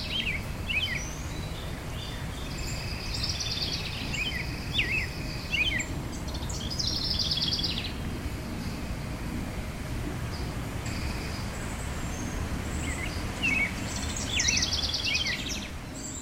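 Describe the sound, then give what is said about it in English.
Birds and insects in a backyard: high bird chirps and short twittering phrases come in scattered bursts over a soft, steady insect hum and low outdoor rumble, with no talking. “Let's take a moment now for some calm. Here's the sound of nature silence from my backyard.”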